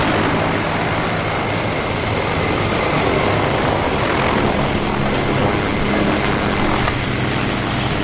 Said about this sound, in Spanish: El helicóptero aterriza en una playa de las Bahamas.